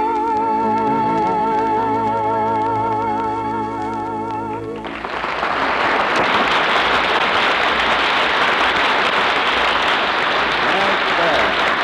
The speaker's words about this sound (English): I wonder where all that applause came from.